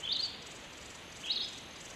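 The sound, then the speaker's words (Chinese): Two short, high chirps from a small bird in the desert, faint and alone, the first near the start and the second a little over a second later. “首长，首长，小鸟， 嘘，小点声，别惊扰了它。”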